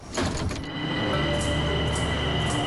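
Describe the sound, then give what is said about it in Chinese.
A subway train pulls into a station: a steady rumble with a sustained high whine runs throughout, and a few brief clatters come near the start. “列车运行前方是国贸站。 哎呦，总算熬到站了”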